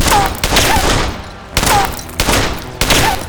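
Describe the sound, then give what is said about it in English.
Pistol shots are fired at a large old tree stump, five sharp, loud cracks with irregular gaps between them, each cut off quickly and leaving a brief rumbling tail. “He backed off about 10 paces from a huge old stump, carefully handing Jeff the pistol. Hit it.”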